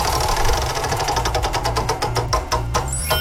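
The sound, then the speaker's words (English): A game show prize wheel spins with rapid clicking that gradually slows, the ticks spreading out over about three seconds against a steady low rumble. “Are you going to spin the wheel for us? Let's spin the wheel.”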